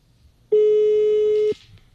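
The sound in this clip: A telephone rings as one steady, loud electronic tone lasting about a second, then stops. No voices.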